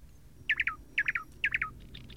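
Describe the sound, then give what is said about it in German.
A nightingale sings three quick bursts, each of three sharp, high chirping notes, followed by a fainter trailing phrase, all fairly soft against a quiet background. “Eine Nachtigall.”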